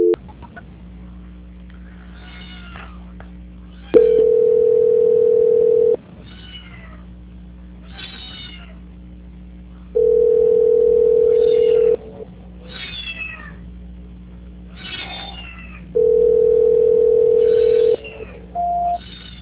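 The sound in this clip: Telephone line tones during a call transfer: three steady mid-pitched tone blocks, each about two seconds long, separated by quieter stretches of faint intermittent chirpy sounds over a low hum.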